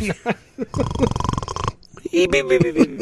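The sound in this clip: A human voice imitates snoring with a raspy, pulsing buzz that lasts about a second. Short vocal sounds come before it, and lively talk follows.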